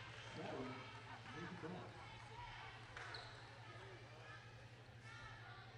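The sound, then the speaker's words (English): A basketball dribbled left-handed during a women's game, its repeated bounces running under a commentator's continuous talk and a low crowd murmur. “She's dribbling left-handed and walks with it.”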